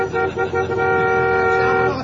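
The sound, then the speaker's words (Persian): A car horn honking in celebration: a loud, steady, buzzing blare held for about two seconds, broken by a couple of brief dips near the start. “اینم بوق شادی.”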